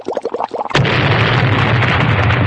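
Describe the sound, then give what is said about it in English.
An explosion from a bubbling experiment: a run of quick bubbling pops, then a sudden loud blast that becomes a sustained, dense roaring rumble until the end. “We just don't want you to cause an effect like that explosion again.”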